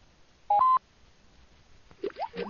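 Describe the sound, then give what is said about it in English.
A brief telephone keypad beep sounds once, clear and fairly loud, as an international prefix is entered. Faint, scattered rustling sounds follow after a quiet pause. “I'm going to dial 011 at the beginning. It doesn't like that. 011. All right, let's try that.”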